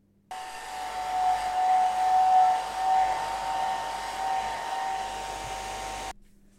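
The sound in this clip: A hair dryer blows on a wet toy, a steady whooshing whir with a constant humming tone that starts abruptly, runs for about six seconds, then cuts off.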